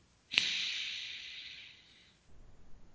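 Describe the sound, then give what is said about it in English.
A deep breath taken during a lung-opening breathing session: the airy hiss starts abruptly, holds steady, then fades gradually over nearly two seconds, leaving faint low rustling. “So take a deep breath. Okay.”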